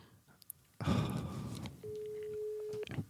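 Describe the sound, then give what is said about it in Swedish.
Telephone call ringing out: a burst of rustling noise, then one steady ring tone lasting about a second, fairly faint. “Ska vi ringa Malin och fråga hur mycket de beställde för? Ring Malin.”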